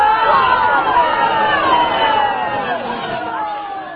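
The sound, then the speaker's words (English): Crowd noise at a right-wing event: a dense hubbub of many voices blending into a steady roar, easing slightly toward the end. “At first, what you hear will be a crowd that's mostly happy, but then they're going to turn on him.”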